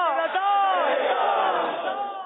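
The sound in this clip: A crowd shouts a slogan response in unison at a naat recitation contest: many overlapping voices form one loud, sustained chant that holds steady and tapers slightly at the end.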